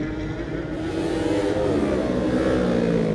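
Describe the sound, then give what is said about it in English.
A Yamaha racing motorcycle revs hard past at a road race, a loud, dense engine roar with layered whining harmonics whose pitch climbs as it surges, sustained strongly to the end. “Here's another Yamaha going now, but listen to this.”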